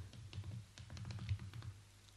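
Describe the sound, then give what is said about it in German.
Someone types a reply on a computer keyboard, with many quick, faint key taps in an uneven rhythm over a soft low hum. “Jetzt schreibe ich einfach eine Antwort.”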